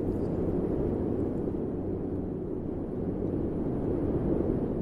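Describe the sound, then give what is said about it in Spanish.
Wind in thin, high, clear air: a steady, low, even rumble that holds at the same loudness throughout, with no other sounds or voices. “El silencio era majestuoso. Solo se escuchaba el rumor del viento.”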